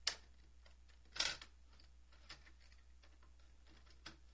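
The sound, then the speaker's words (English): Cassette tape being flipped over in a tape recorder: a few faint clicks and plastic handling knocks over a low steady hum, with quiet rattling between them. “Flip our tape over here.”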